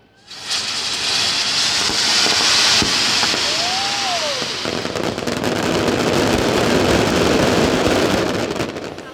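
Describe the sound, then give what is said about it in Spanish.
Gunpowder rockets and firecrackers roar in a massive festival fireworks display in Elche, Spain, with nearly 3,000 kilos of powder. A loud, dense crackling and hissing barrage continues without a break, and a single whistle rises and then falls partway through. “La coetá fue muy intensa y la palmera de la Virgen volvió a deslumbrarnos a ilicitanos y turistas.”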